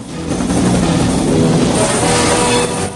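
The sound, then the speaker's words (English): A helicopter lifting off from a river's surface in the film Rambo gives a loud, steady roar of engine and rotor, a dense churning drone that holds at an even level throughout. “Rambo flicks a couple of switches and the chopper lifts off from the river's surface. The chopper trails a plume of smoke as it heads off over the jungle.”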